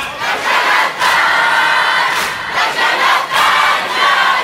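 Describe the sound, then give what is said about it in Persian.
A large crowd of mourners at a religious mourning gathering chants responses in unison while beating their chests, a loud, continuous wall of voices with rhythmic surges roughly every second. “اگه بدونید چقدر قشنگ سینه میزنن، چقدر قشنگ جواب میدن.”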